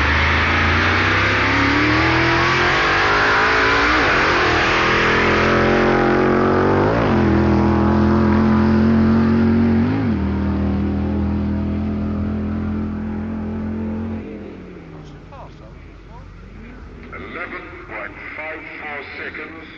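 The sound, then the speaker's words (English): A Dodge drag racing car roars through a standing quarter-mile run. Its loud engine note climbs in several stepped rises as it shifts through the gears, then drops off and fades toward the end. “a solo run by Dave Strickler in the Dodge as he hurls well over a ton of metal over the standing quarter mile in 11.54 seconds at 126 miles per hour.”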